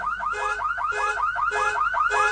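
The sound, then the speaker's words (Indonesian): A car alarm is going off: a loud electronic tone sweeps and chirps in rapid repeating cycles, and a brighter pulsing pattern comes back every half second or so, steady and unbroken with no voices. “lampu hazard mobil menyala, dan alarm juga berbunyi. Ternyata itu adalah mobilku.”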